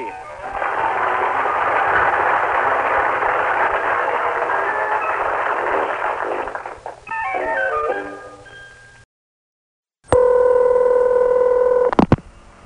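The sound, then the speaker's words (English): Telephone touch-tone dialing: a quick run of stepped electronic beeps follows a long stretch of dense, static-like noise. After a short silence, a loud, steady phone tone holds for about two seconds. “You've dialed 24-hour telephone entertainment from ZZZZZZ.”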